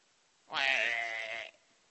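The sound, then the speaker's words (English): A sheep bleats once: a single sustained, wavering bleat of about one second. The sheep is lying stuck on its back in a field. “And if he doesn't hear that sheep moaning,”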